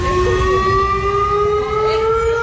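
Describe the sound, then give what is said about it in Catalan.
A civil defence siren sounds during an emergency drill in Granollers, a loud, sustained wailing tone with strong harmonics whose pitch drifts gently upward while staying nearly level, heard alone without voices. “Quan passaven uns segons de les 11 del matí han començat a sonar els mòbils i després les sirenes.”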